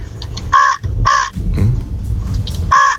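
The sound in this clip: A man imitates a crow's caw, giving three loud, harsh caws separated by pauses over low background rumble.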